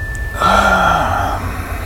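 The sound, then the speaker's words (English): A deep inhale during a breathing exercise: one long, breathy intake of air lasting about a second, fairly loud, that then fades back to quiet. “We're just taking some nice, great, big, deep breaths to kind of center our body, release any tension, whatever you may be holding. Inhale wide.”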